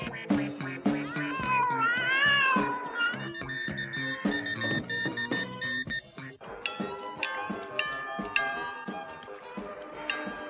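Cats meowing and yowling on a shore: several drawn-out, wavering meows with rising and falling pitch, set against a busy musical background.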